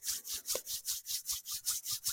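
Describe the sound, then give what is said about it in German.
Hands and fingers rub together during a guided relaxation exercise, making faint swishing strokes in a steady, quick back-and-forth rhythm. “Auch langsam wieder ein bisschen bewegen, Finger lösen, gerne zusammenreiben die Finger, die Hände.”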